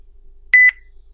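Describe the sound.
A short electronic beep marks the end of a phone call. It is a single brief, clean, mid-pitched tone in two close parts, sounding alone against near silence.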